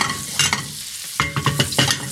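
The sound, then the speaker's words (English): Butter sizzling in a hot frying pan before cooking eggs: a faint hiss under several sharp, brief clicks and scrapes of pan contact. No one speaks. “My pan is nice and hot. I'm gonna add a nice glug of butter to the pan.”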